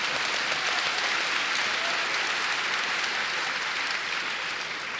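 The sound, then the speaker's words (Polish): Audience clapping during a bilingual church sermon, a dense, steady wash of many hands that holds at an even loudness for the full five seconds, fading only slightly at the very end, with no voices over it. “Teraz trzeba klaskać.”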